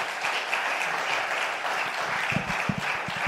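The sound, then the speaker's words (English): An audience at an evening event applauds its panel members with a full, steady burst of many hands clapping. A few heavier claps punctuate the close. “I would love for us just to thank these panel members and the people that were involved. Can we give them a round of applause?”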